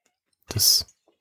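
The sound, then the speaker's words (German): A single sip of a drink, one brief, soft slurping burst lasting under half a second, alone against silence. “Ich habe gerade einen Schluck getrunken, sorry.”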